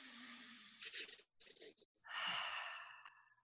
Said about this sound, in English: on the count of 3, we got to take a deep breath